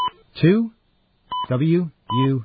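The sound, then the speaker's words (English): Telephone keypad tones dial a five-digit extension on a phone-mail system: three short beeps, each followed by brief voiced sounds. “Then you dial the 5-digit extension”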